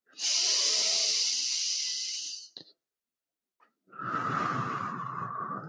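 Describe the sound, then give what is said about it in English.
Deep, slow breathing during a yoga moving meditation. One long, airy, hissing breath is followed by a pause, then a second long, lower, fuller breath. Both are loud and close, with no talking. “Inhale, arms rise up. Exhale, down by your sides. I'm just going to do it in silence one more time.”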